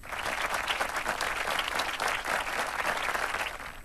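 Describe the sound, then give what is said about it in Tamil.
Applause for a quiz contestant's correct answer: a steady wash of many hands clapping, even in loudness for about four seconds with no talk over it. “அப்ப உங்களுக்கு ஒரு claps குடுக்கறதுல தப்பே கிடையாது.”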